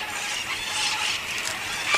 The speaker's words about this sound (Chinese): 在这丰收的时节，鹦鹉们成群觅食，有的鸟群甚至有超过100只鹦鹉。